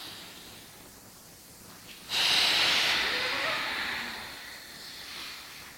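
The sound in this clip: A long, forceful exhale during a breathing exercise: a loud, breathy hiss that starts abruptly and then fades slowly over about three seconds, with no talking.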